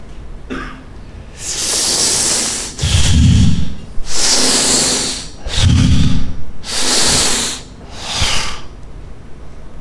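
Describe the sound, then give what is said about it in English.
A man's voice hisses like a snake in about six long, breathy, high-pitched bursts separated by short pauses, some with a throaty rasp underneath. “He raised himself to his elbows and he hissed like a snake.”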